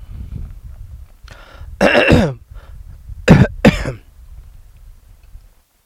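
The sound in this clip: A person clears their throat and coughs in a few harsh, rasping bursts, with low throaty rumbling between them and no talk.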